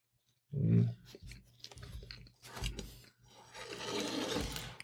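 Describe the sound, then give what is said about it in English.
Chewing on a big bite of a slightly cold burger, heard as close, irregular wet mouth noises with a louder thump near the start and a few soft crunching bursts, with no talk. “It was a big bite, so it's going to take me a minute to chew this up.”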